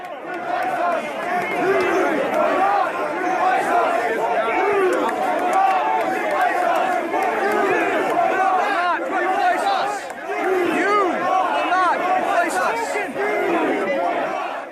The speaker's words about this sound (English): I want to play a little bit of protester audio for our audience.